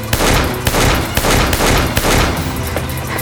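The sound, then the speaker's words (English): Gunshots crack out in a gunfight beside a livery barn, where a shooter fires from the loft. A rapid barrage of loud, sharp shots follows closely one after another, with no talking. “The first slug struck Wes in the left shoulder. The second shot narrowly missed Renita. Get away from me! Wes drew his gun.”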